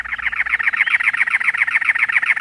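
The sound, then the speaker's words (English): A cactus wren sings from atop a many-lobed cactus in the Arizona desert on a hot late-April morning, giving a long run of harsh, grating, chugging notes in a steady rapid rhythm, clear and unaccompanied by voices. “A cactus wren sings, perched atop a many-lobed cactus.”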